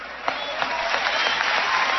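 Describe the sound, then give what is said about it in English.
A crowd applauds Vice President Biden with dense, continuous clapping that holds steady and loud throughout. “The crowd seems to like Vice President Biden.”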